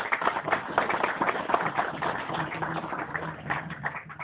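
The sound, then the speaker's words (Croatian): Warm applause for a sponsor at a literary awards event, a dense, steady patter of many hands clapping that holds at an even level for about four seconds, with a faint low tone beneath it. “Ja bih ih pozdravio jednim toplim aplauzom.”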